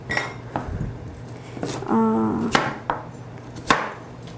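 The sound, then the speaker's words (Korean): A knife chops vegetables on a board: a few sharp, irregular chopping strikes, with a brief metallic ring in the middle. “모든 야채들을 쉽게 익을 수 있도록 한번 썰어주세요. 자, 야채들을 이렇게 썰고,”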